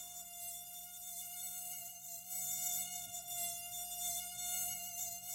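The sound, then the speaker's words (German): A mosquito buzzes in a thin, steady, high-pitched whine that stays faint and unbroken, with slight swells in loudness. “Oh, furchtbarstes Geräusch der Welt. Mücken, ne?”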